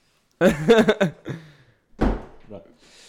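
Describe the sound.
A single dull thud of a door being closed follows a brief burst of speech, with a short, faint vocal sound trailing after it.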